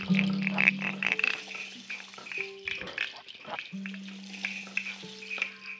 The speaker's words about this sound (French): bercés par le bruit de l'eau et par des scritch-scratch du clapote.